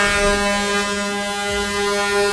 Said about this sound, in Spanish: Uy, suena largo. Los pitos que yo tengo aquí. Suena largo y tendido.